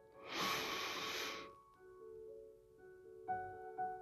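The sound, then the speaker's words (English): A deep breath in during a guided meditation: one long, airy inhale lasting about a second, followed by soft steady tones with a couple of faint later breaths. “Now please take a deep breath in again.”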